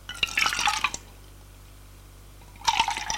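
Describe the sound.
A drink is poured from a freshly opened bottle, heard as two short bursts of bright trickling, splashing liquid separated by a quiet pause of over a second.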